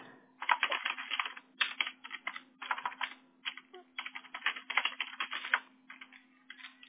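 Typing on a computer keyboard: rapid, irregular clatter of key presses in uneven bursts and short pauses, with a faint steady low hum underneath throughout.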